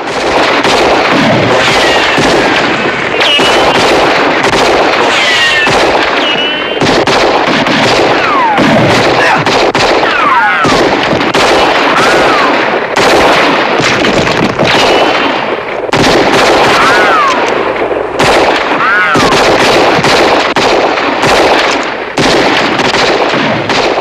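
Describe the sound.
Loud, sustained gunfire in a shootout between a posse and outlaws: many overlapping shots crack in rapid, irregular bursts throughout, with voices heard amid the firing.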